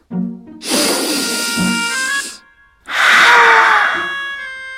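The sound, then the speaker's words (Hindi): A long, deep calming breath drawn slowly to ease fear, heard as two sustained breathy rushes of about two seconds each, separated by a short pause, over faint steady background tones. “चलो एक बार मेरे साथ लंबी सांस लो, ऐसे।”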